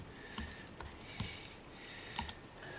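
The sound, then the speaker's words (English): Keys clack on a computer keyboard as a search is typed into a search bar. Several soft, sparse clicks sit over a low, steady hiss, with two strokes falling close together near the end. “On the monitor, she types "BD serial killer" into the Bing search bar.”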